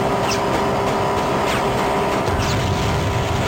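Racing car engines drone in a LEGO video game race minigame: a constant loud buzzing whine with a few brief sweeping chirps over the top.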